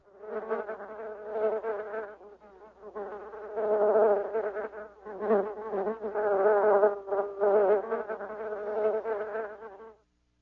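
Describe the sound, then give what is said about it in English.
Bees buzzing in a continuous, wavering mid-pitched drone that swells and dips in loudness, heard alone and stopping abruptly at the end. “Bees buzz.”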